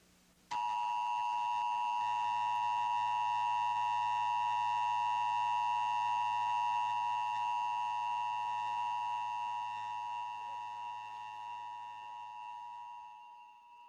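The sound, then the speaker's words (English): Emergency broadcast system test tone played on a TV: a steady, piercing two-tone electronic drone that starts abruptly and holds at constant pitch and loudness for about thirteen seconds, with a faint low hum beneath and a slight fade at the end. “This station is conducting a test of the emergency broadcasting system. This is only a test.”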